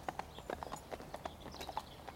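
Horses' hooves clip-clop as riders set off on a ride, a brisk, steady run of many light hoof strikes, fairly faint throughout.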